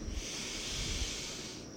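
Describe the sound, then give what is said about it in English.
A slow, deep breath is drawn during a guided breathing exercise. It is a soft, steady airy rush that lasts the whole moment, with no speech. “Let's take three breaths.”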